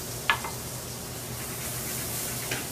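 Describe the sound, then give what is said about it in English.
Onions and red and green peppers fry in a pan with a steady, even sizzling hiss throughout, broken by a couple of brief, louder bumps from stirring. “Chop onions, red and green peppers. They're going in, right? Red and green peppers in the pan.”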